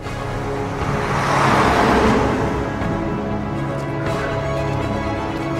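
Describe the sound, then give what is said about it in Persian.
Trucks carrying Russian soldiers drive past with a broad, heavy engine roar that swells to a peak partway through and then eases off slightly, staying loud and continuous to the end. “چند تا کامیون از سربازای روس از پشت سرش رد میشن.”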